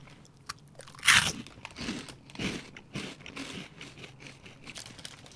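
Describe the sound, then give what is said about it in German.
A sharp bite into jumbo corn puffs shaped like donuts, flavored with peanut, caramel and salt. It is followed by steady, crackly crunching and chewing that comes in uneven bursts. “Das sind im Prinzip Jumbo-Flips in Donutform mit Karamell und Salz. Und die wollen wir auch mal probieren.”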